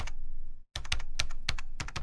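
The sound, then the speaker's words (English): A password is typed on a computer keyboard: many quick, crisp key clicks in an uneven rhythm, with one short pause near the start, and no voices. “Tony types in his password.”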